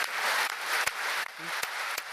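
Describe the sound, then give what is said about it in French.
A standing ovation at the close of a conference: dense, sustained clapping from a large audience, with a few sharper individual claps standing out from the steady roar. “La conférence s'est ponctuée carrément par une standing ovation.”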